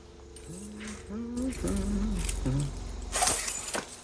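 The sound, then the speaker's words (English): A bunch of keys jangles as someone searches through them, with soft metallic clinks and a low voice humming beneath, then a brighter burst of jingling near the end. “The manager makes a meal of searching through his bunch of keys.”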